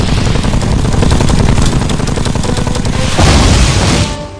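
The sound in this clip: Rapid, dense gunfire from a ship's 76 mm gun firing at an incoming missile: a loud, unbroken roar of overlapping blasts that swells into a heavier burst near the end, then drops away abruptly.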